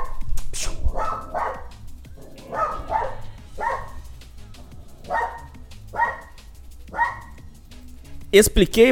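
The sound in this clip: A dog barks repeatedly, with many short, sharp barks spaced irregularly across the whole stretch over a steady low background hum, ending in a louder, busier burst.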